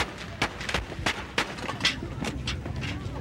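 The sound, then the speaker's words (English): Archival gunshots from the assassination attempt on President Ronald Reagan at the Washington Hilton, fired by John Hinckley Jr.: a rapid series of sharp cracks within a few seconds, set against a noisy, hissing background. “John Hinckley Jr. fired six shots in a matter of seconds, all aimed at the president.”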